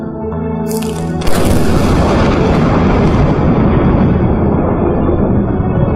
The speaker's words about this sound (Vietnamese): Tiếng sấm nổ như tiếng bom phát ra phía sau sân vườn.